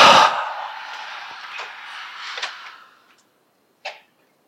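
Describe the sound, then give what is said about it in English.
A long, airy breath is exhaled in a breathing-exercise demonstration, starting strong and gradually fading over about three seconds, followed after a pause by one short puff of breath. “So, long breath, then do like this.”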